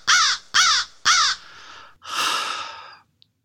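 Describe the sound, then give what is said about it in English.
A crow that has flown in through a broken window gives three harsh, evenly spaced caws, followed by a longer, breathy rasp before it stops. No one speaks. “there's a crow just flew in, I guess, through the broken window.”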